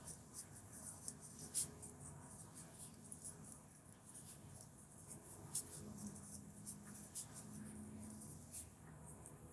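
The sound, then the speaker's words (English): A pen writes on paper with faint, scratchy strokes in irregular short bursts and small pauses. “I'm gonna write down your title before I forget.”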